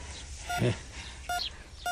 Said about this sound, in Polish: O, pika jak w szpitalu. To serce ziemi pika.